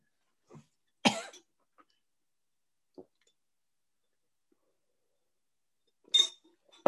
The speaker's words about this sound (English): Sorry. My smoothie went down the wrong pipe.